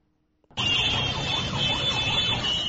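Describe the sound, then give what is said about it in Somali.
Horns of many vehicles blare in a traffic jam on a main road in Mogadishu. After a brief near-silence, a loud, dense, continuous wall of overlapping honking begins abruptly, with a wavering tone running through it. “Hoonka gaadiidka kala duwan ee aad maqlaysaan waa ciriiri ka taagan mid ka mid a wadooyinka halbowlaha u ah isu socodka dadka iyo gawaarida Muqdisho”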